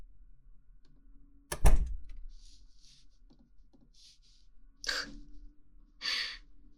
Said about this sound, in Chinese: 过来，关门。